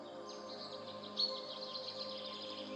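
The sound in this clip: Faint birdsong: many quick, high chirps and twittering calls come one after another over a steady low background hum.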